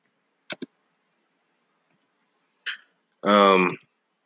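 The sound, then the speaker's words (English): Sparse computer keyboard typing: a quick pair of sharp key taps, a pause, another short click, then a brief voiced sound at the end. “hold on, I'm trying to type something in.”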